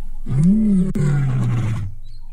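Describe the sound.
A lion roars on a live-streamed safari. It is a single deep, rumbling call under two seconds long that swells slightly, then slides lower as it fades.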